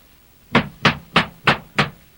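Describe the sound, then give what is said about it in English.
Loud knocking on a castle door: five firm, evenly spaced knocks, each a sharp thud with a short ring, standing alone. “So he ran up boldly to the door of the castle and knocked loudly.”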